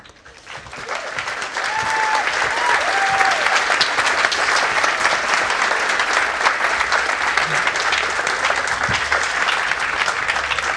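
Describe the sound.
Enthusiastic audience applause welcoming speakers at the 2016 Edinburgh International Book Festival, swelling within the first second and then holding as dense, steady clapping for about ten seconds.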